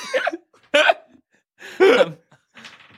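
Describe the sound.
A voice imitates someone choking, making gurgling, strangled noises in four short, loud bursts separated by brief silences.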